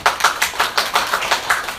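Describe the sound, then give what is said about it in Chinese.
Applause welcoming a speaker at a press conference for a book launch on innovation: loud, steady, evenly spaced claps in a quick rhythm with no talk over them. “掌声欢迎。”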